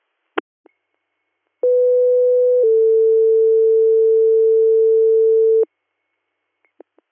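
Two-tone dispatch paging alert from a fire and EMS radio call for a seizures patient: a steady tone lasting about one second, then a slightly lower steady tone held about three seconds, loud and alone, with brief clicks before and after.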